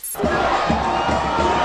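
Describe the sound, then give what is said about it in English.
A crowd of fans cheers and shouts on Bourbon Street in New Orleans after the Saints' Super Bowl victory over the Colts, a loud, dense roar of voices that bursts in after a brief silence and holds steady. “That's the sound of fans celebrating on New Orleans' famous Bourbon Street last night after their Saints' victory over the Colts in the Super Bowl.”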